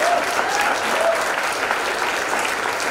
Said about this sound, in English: A round of applause to all the people who make this possible.